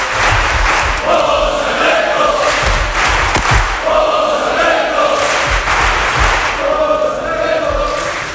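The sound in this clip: A crowd singing a chant for a studio guest: many voices carry a sung, repeating phrase in a continuous, steady wash at an even loudness.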